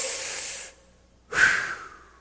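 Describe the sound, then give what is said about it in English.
An audience at a sermon takes one big deep breath together: two broad, hissing swells of air, the first fading out, then after a short pause a second, louder surge that slowly trails away. “Let's take one big deep breath. Here we go.”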